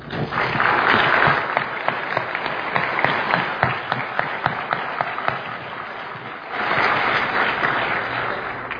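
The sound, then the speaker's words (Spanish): Applause from the audience at a 20 November sports awards ceremony in Quintana Roo honouring medal-winning athletes: sustained, dense clapping that dips slightly in the middle, then swells again toward the end. “Yo les doy un aplauso”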